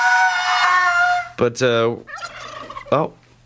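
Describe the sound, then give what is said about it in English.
Turkeys coming into a building give a long harmonic call followed by several sharp, warbling gobbles, loud and unaccompanied by talk. “We got the damn turkeys coming in the building, so we gotta get out of here.”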